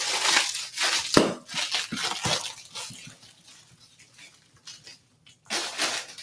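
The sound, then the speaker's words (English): Plastic knives, cups and spoons handled on a table, with many crisp, crinkly clattering bursts, a quieter stretch of faint rustling, then more rattling at the end. “plastic knives, plastic cups. Here we go. Plastic spoons.”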